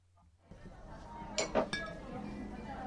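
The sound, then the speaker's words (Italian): Soju glasses clink in a bar in Pyongyang, a few faint, bright chinks rising briefly over a steady low murmur of bar ambience. “È un giovedì sera come molti altri in un bar di Pyongyang. Due studenti universitari sono al loro quarto bicchiere di soju.”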